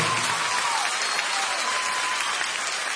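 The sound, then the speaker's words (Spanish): Applause comes from an audience at a live recording in a theatre. Dense, even clapping fills the whole stretch at a steady level, without pauses or voices. “¡Aplausos!”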